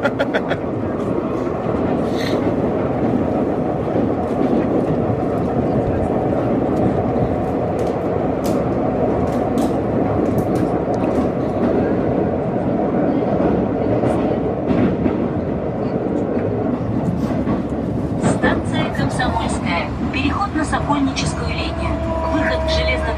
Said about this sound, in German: jetzt viel Spaß beim Weiterhören in der Metro.